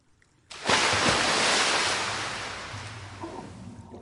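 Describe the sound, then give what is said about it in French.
Someone dives into water with a sudden loud splash. A long hissing wash follows and slowly fades away. “Oh non, il est tombé dans l'eau. Pas le choix, je vais devoir plonger.”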